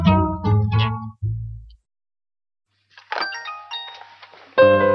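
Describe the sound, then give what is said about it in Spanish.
Telephone ringing: bright, tonal electronic chimes sound in a few bursts after a silent gap, following some tonal sound at the start. “Está sonando el teléfono, suena. Atiéndalo.”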